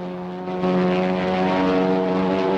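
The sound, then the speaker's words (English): Propeller-driven planes, one climbing upward among three Japanese aircraft, give a loud, steady engine drone with a strong harmonic hum that steps up in loudness partway through and then holds, with no voices. “As the three Japanese planes head into the clouds, Woody sends his plane soaring upwards.”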